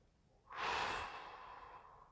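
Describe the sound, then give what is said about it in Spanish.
A deep breath taken during a guided breathing exercise: one long, soft, airy rush of breath that swells quickly and then slowly fades, heard alone with no talk. “inhala bien profundo, inhala nariz, exhala por tu boca.”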